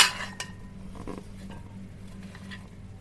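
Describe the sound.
Faint clinks and scrapes of a spoon against a pot as the remaining cooked beans are spooned over sausage pieces in broth, a few soft taps spread over a low steady background.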